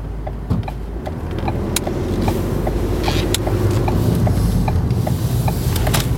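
A car engine runs steadily as a vehicle drives off at a petrol station, a low continuous rumble with faint, regular ticking over it and no voices.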